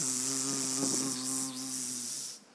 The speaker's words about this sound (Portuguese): A hora que eu cheguei em casa, parecia o apocalipse das moscas. Você entrava em casa e você ouvia